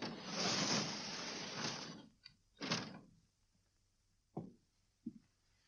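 A window being shut against a cold draught: a sustained rushing noise gives way to a brief sliding scrape, then two short, sharp knocks with quiet between them.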